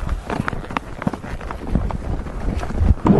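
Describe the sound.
Hooves of a horse setting off at a trot on a ride out from a village, a busy run of many quick hoofbeats mixed with steady rustling noise throughout.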